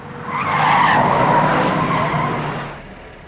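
Car tyres skid as the car brakes to a stop, making a loud, harsh screech that swells, holds for a couple of seconds and then fades out.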